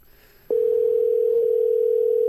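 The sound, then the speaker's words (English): A steady telephone tone sounds while calling a listener phone line. The single pitch starts abruptly after a short near-silent moment and then holds unbroken and even to the end. “What you're hearing now is us calling our listener line.”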